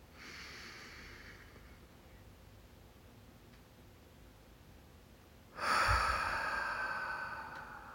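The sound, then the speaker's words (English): A slow breath is let out through the nose during a guided breathing exercise. A faint, airy breath comes first, then after a quiet pause a longer, louder nasal exhale with a soft whoosh gradually fades. “Breathe in through your nostrils and hold for 2 seconds. And exhale and hold for 2 seconds.”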